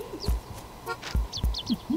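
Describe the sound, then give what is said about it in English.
Bird chirps in a video game near the town hall, with a few quick high tweets and lower warbling notes mixed with soft low thuds. “Oh, you must be close to town hall. Because I hear a bird.”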